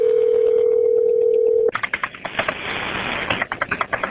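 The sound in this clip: An emergency dispatcher's callback line carries a steady, clear telephone tone for about a second and a half. It cuts off abruptly into a rapid series of sharp clicks, like keys being pressed.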